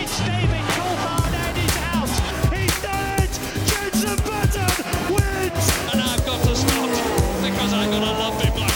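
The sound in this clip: Formula 1 race cars at the start of the 2021 Spanish Grand Prix: a dense, loud roar of high-revving engines with rising pitch sweeps and tyre squeal, continuous throughout.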